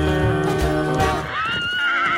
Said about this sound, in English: They gallop on horses, staring longingly at each other as they ride.